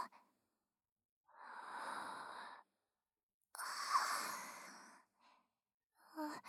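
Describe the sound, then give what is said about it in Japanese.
Deep breathing from a person: two long, airy breaths separated by a short pause, followed by a few faint, brief breath sounds, with no talk. “少し深呼吸を。”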